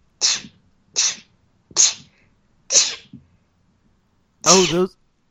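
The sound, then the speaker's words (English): Five sharp human sneezes, each a short loud burst separated by brief pauses; the last is fuller and more voiced than the others. “oh, you're sneezing. Yes, those were sneezes.”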